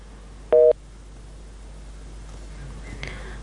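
A single short electronic telephone tone sounds after a caller's line drops during a phone-in call. It is a loud, harmonic-rich burst, followed by faint hiss and near-quiet.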